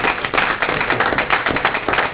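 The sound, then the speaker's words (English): A round of applause at a borough council meeting honoring an official's 17 years of service. Dense, continuous clapping from a group holds an even level throughout. “17 years, that deserves a round of applause.”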